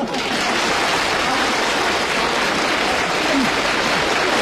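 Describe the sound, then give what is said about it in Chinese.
Audience applause for a stage comedy performer, a dense, continuous wash of clapping that stays loud and even from start to finish. “先别鼓掌了，别鼓掌”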